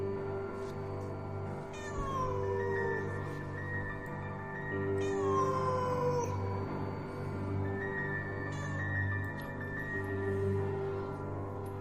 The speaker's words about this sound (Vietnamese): Ở bên ngoài, con mèo vẫn kêu lên từng tiếng đến não ruột.